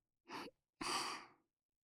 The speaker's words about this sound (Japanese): 優しく、生温かい吐息を吹きかけていく。